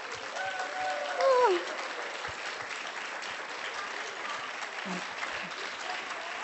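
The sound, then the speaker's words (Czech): An audience applauds with dense, continuous clapping at an even level throughout. A voice sounds briefly over the applause near the start and again later. “a zbytek Slovenska až povstane a zatleskáme jim.”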